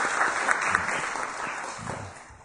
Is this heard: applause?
yes